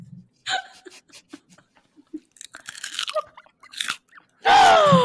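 Crunchy food being bitten and chewed close up, many short crisp crackling crunches in an uneven rhythm, ending in one louder, longer burst.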